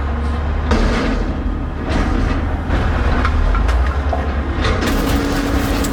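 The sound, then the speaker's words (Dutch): A garbage compactor truck makes loud, continuous rumbling and grinding, a steady dense mechanical roar with a few clattering bumps and no voices. “Dit is een kraakperswagen. Veel vuilnisophalers, ja, die gaan dus ook al vroeg aan het werk.”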